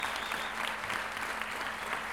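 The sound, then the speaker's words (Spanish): Steady applause from an audience at a payadores gathering in Lo Barnechea: dense, even clapping that holds at a constant level throughout. “Un gran aplauso para todos mis hermanos, mis compañeros de trabajo y de labor.”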